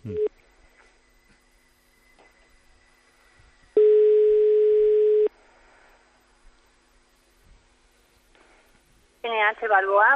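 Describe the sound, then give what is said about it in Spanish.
A telephone call being placed to a hotel: a short tone at the start, then one long steady mid-pitched ringing tone lasting about a second and a half, and a voice answers near the end. “Vamos a ver. Estamos marcando.”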